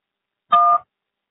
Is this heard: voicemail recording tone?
yes